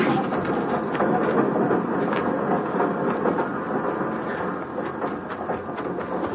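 A train rumbles along steadily with a continuous clattering of rail cars over the tracks, dense and fairly loud throughout, with no talk.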